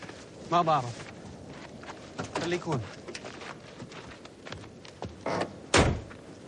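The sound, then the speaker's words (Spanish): A car trunk and van door shutting in the desert: one sharp, loud thud near the end, with voices and scattered softer knocks and movement earlier. “El conductor cierra el maletero y vuelve a la furgoneta.”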